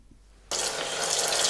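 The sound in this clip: Water pours out of a broken fixture during renovation work, more than the damaged pipe can carry. After a near-silent start, a loud, steady rushing stream bursts in abruptly and keeps going to the end.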